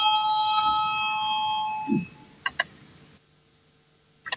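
An electric chamber bell rings in a parliament to call members to vote: a steady, buzzing tone lasting about two seconds that cuts off abruptly, followed by a soft thump and a few sharp clicks.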